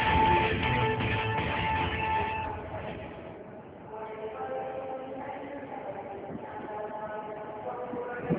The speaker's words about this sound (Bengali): train এসে থামল